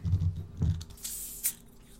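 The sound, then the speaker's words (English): Hissing fizz as a bottle of sparkling water is opened while mixing a slow gin sling cocktail: a couple of low handling knocks, then two short, bright bursts of escaping gas. “You'll want to open up that sparkling water, too.”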